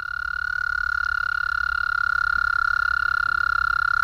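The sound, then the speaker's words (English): A toad gives a fast, steady trill: a rapid, even pulsing buzz at one high pitch, continuous and unbroken from start to finish with no voices. “And the toad. The trill is quicker and steadier. Yes, steady.”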